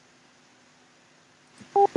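Telephone keypad tones as a number is redialed: two short, dual-pitched beeps near the end, preceded by a quiet line hiss.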